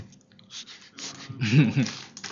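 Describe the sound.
Crunchy chewing of snacks from a bag, faint and irregular, with a voice briefly audible among the bites.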